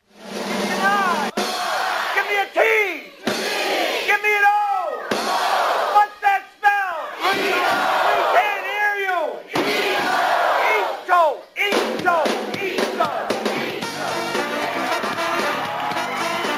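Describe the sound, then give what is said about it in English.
A studio audience yells and cheers during the Dancing Itos comedy bit on The Tonight Show with Jay Leno, an O.J. trial parody. The loud, sustained crowd noise carries whoops and raised voices, broken by a few brief dips. “What you just heard there is this recurring bit on The Tonight Show with Jay Leno. It's called The Dancing Itos.”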